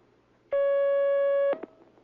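A telephone line tone sounds as a caller is connected to a call-in line: one steady high beep lasting about a second, then a short click. Nothing else is heard.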